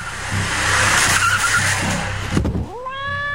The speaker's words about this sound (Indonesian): Aku cuma senyum sambil melambatkan laju mobil.